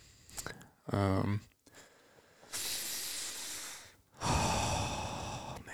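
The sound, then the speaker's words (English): A big, deep breath: a short voiced snort-like sound, then two long, loud breathy rushes of air separated by a brief pause. “That's a big, deep breath for everyone to hear.”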